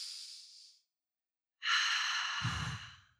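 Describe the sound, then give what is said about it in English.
A deep breath taken in a pause during talk: an airy breath that fades out, a second of silence, then a longer, fuller breath that turns rougher near its end. “wait, real quick, breathe.”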